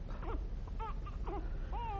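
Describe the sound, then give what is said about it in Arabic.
A newborn baby girl cries in several short, faint whimpering bursts. “صغيرتي أنت لا تعرفين الحياة، ولكنك تستقبلينها بالبكاء.”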